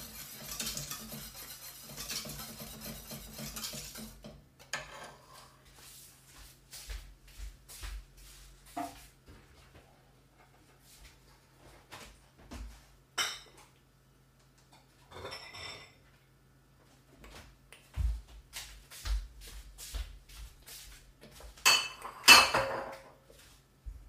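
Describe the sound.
Faint, scattered clinks and scrapes of a utensil against a pot as it is stirred during cooking, with irregular taps separated by quiet gaps.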